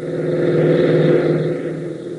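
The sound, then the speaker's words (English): Jeep engine driving off across an airfield, a steady, loud motor drone with a smooth hum that swells slightly midway and then holds. “Then Tank and Gale race into the hangar, reappearing within seconds in a jeep, and race across the field.”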